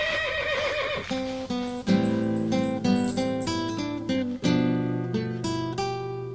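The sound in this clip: A horse whinnies as riders set off toward San Luis Rey, a loud, wavering neigh at the start. Sustained music with repeated chords follows and continues to the end.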